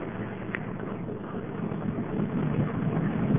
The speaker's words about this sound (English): We're driving through another one of those streams, and the microphone is wet now.